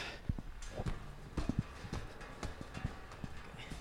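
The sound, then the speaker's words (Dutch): Footsteps climbing the stairs of a tall multi-storey building, heard as many irregular hard knocks and thumps with no talk. “En dan gaan we de trap op.”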